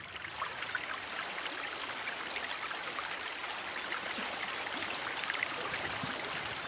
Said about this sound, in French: Là, il y a du courant, c'est compliqué, là.